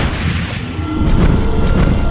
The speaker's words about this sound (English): Another explosion and I flew backwards, tumbling over shrubs and rocks.